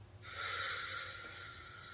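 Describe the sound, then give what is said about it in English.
A deep breath drawn through the nose during a guided breathing exercise: one long, steady, airy breath that starts quickly and holds for almost the whole clip, quiet and with no talk. “So we're going to do a big inhale here. And exhale.”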